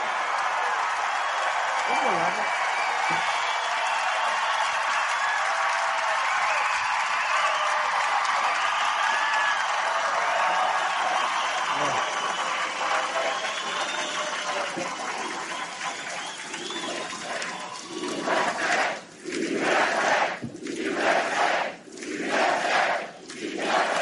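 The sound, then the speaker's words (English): Crowd chanting at a political rally. A broad, loud roar of many voices gives way in the final seconds to rhythmic chanted bursts that rise and fall in a steady pulse. “Yeah, so you hear some of the comments that he made, and you hear the chants of some of the whites.”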